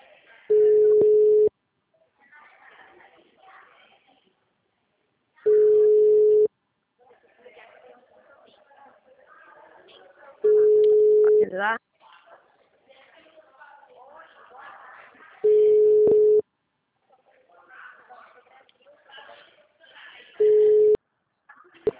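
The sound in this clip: Ringing tone of an unanswered phone call: five long, steady, mid-pitched tones repeat at regular intervals of about five seconds, with a voice talking in the gaps between them.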